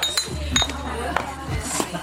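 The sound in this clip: Glass beer bottles clink as three of them are set down on a table, with a few sharp, bright taps spaced irregularly over a low background.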